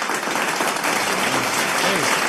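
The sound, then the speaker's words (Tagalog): Applause from a crowd called on to clap: steady, dense clapping that holds at an even level for about two seconds, with a few voices mixed in. “Palakpakan natin dyan yung ating gobyerno, mga kababayan. Yun. Palakpakan dyan.”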